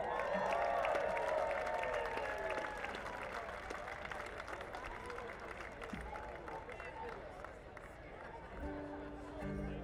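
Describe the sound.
Concert audience applauding as musicians are welcomed on stage, sustained clapping with scattered cheers and crowd chatter that slowly thins out, with voices heard talking.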